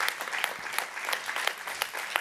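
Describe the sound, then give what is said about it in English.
Audience applause at a talk or sermon: a crowd claps steadily throughout, with a few sharper, louder individual claps popping out of the dense, even patter. “You may not want to clap for me by the time I'm done, but you can clap now.”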